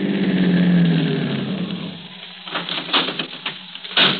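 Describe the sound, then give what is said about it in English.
A car peeling off the highway to the left: steady road and engine rumble that gradually softens, with light irregular ticking and patter in the latter half. “I'll just peel off to the left and let him have the highway to himself.”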